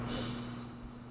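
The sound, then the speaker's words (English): A person takes a deep breath in: a short, soft, airy hiss that fades quickly over a steady low hum. “Take another deep breath in and release. And one more time, deep breath in.”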